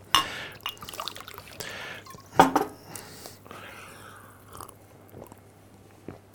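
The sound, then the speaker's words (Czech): A person takes a drink during a talk at a public science café event: soft sips, swallows and small liquid clicks, with a few louder gulps scattered across a quiet stretch and no talking. “já se jenom napiju, jestli můžu.”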